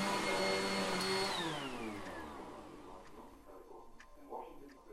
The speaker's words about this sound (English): Listen to this sound. Someone doing the vacuuming.